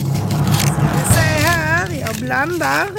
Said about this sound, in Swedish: Blandar. Så tar jag upp en lapp. Och när jag vecklar ut den